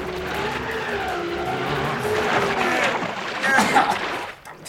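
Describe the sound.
An MG car engine revving hard while pulling a camping trailer out of mud, a strained, wavering whine with spinning, squealing tires that grows more intense before dropping away at the end.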